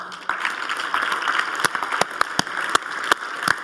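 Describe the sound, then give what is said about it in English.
An audience at an evening church preaching event applauds to welcome the preachers, with steady applause and several sharper individual claps standing out near the end. “let's everybody put our hands together and give these guys a very warm welcome”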